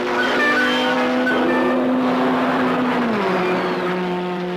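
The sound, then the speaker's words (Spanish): A Ferrari race car leaves the pits onto the circuit after a quick refuelling stop. Its engine gives a loud, sustained, harmonically rich drone that holds steady, steps down in pitch around three seconds in, then carries on lower. “Ya sale al circuito el número 8. Ha sido un revituallamiento muy rápido para el Ferrari. Y ahí va el número 20 de nuevo en la pista”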